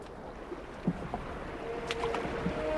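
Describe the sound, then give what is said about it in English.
Soft water wash from a boat drifting along a sun-dappled river, a quiet, continuous watery rustle with a few faint knocks. “The boat drifts on along the sun-dappled waters.”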